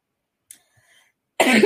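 A single short, harsh cough from someone with allergies bursts out abruptly after a near-silent stretch.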